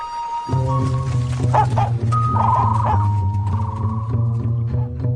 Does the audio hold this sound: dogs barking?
yes